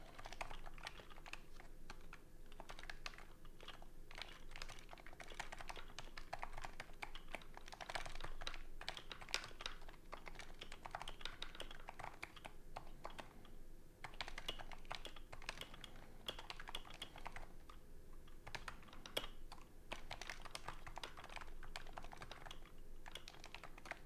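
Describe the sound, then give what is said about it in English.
Faint, steady typing on a computer keyboard: fast, continuous clicking that runs without a break from start to finish. No voices are heard. “Let's type these down so I don't forget it later.”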